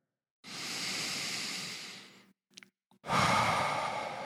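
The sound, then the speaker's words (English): A deep breath in, then a long breath out, taken slowly during a guided relaxation exercise. The soft, airy inhale is followed by a brief pause with a couple of small clicks, then a fuller exhale. All of it is quiet. “just take in a deep breath and let it out. And let's do another.”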